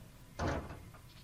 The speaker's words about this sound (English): Okay, there's the door.